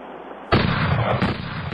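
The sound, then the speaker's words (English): Gunshots during target practice: two loud, sharp reports less than a second apart, each followed by a sustained rumbling tail, with no talk. “Okay, I heard more than one shot.”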